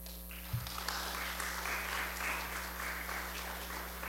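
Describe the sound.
Applause from an audience greets a reverend taking the stage, a steady, even wash of clapping over a low electrical hum, with one sharper knock near the start.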